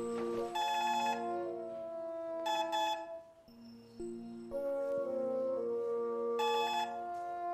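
A telephone ringing as a bright electronic melody of sustained, harmonic-rich tones, with a short dip midway before the pattern resumes. No voices.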